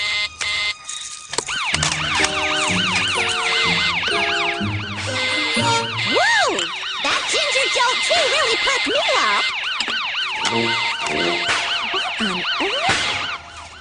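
Several police sirens pass close by, their loud wails overlapping and sweeping up and down in pitch without a break, filling the scene on all sides.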